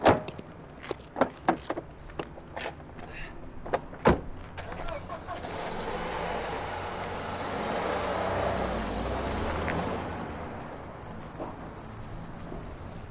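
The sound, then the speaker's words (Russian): Car doors thump shut a few times as people get into a car, then the engine and road noise swell into a steady rush as the car drives away and gradually fade. “Те садятся в машину и уезжают.”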